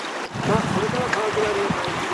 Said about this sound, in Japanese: はい、下流に向かってこぎ出します。